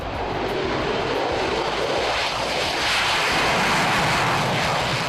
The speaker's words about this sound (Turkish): İşte dünyanın en yüksek bütçesiyle geliştirilen savaş uçakları.